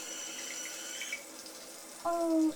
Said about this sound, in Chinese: 媳妇儿在洗澡呢。可是洗完了才发现，我忘了拿浴巾了